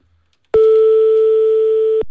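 A telephone line tone sounds while a call is placed to a hotel to reserve a room. It is one loud, steady, mid-pitched note that starts abruptly and holds for about one and a half seconds before cutting off.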